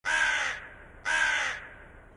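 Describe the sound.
A crow caws twice, evenly spaced, each call loud, harsh and raspy with a trailing fade.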